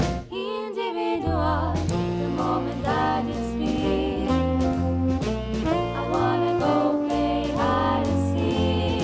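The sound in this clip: A swing song is sung over loud band accompaniment, with the vocals carrying a lilting melody and the music continuing steadily for the whole stretch.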